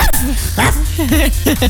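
A person imitates a dog barking with a few short, voiced yelps in a rising-falling pattern, spaced out over under two seconds and fairly loud.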